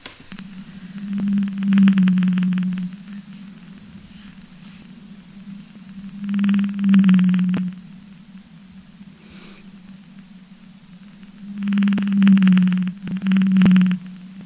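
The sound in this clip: Whale song made of low, haunting moaning notes, heard in three separate phrases with quiet gaps between them; each phrase holds a few sustained, slightly wavering tones, with no voices.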